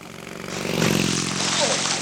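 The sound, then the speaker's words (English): A motorbike speeds past, its engine roar swelling in loudness and then holding as a steady, droning whine. “Hey! You on the motorbike! Don't go so fast!”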